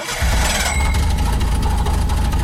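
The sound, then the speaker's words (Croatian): A car engine starts with a short cranking catch and settles at once into a steady, low, rumbling idle that holds evenly to the end. “Pali se neko auto.”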